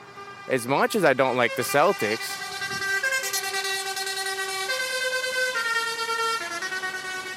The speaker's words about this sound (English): that is an actual semi with its truck horn blaring that